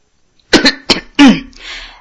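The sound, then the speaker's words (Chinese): A person coughs three sharp times in quick succession, then lets out a short, breathy exhale, alone and fairly loud. “鄂尔泰咳嗽了一声”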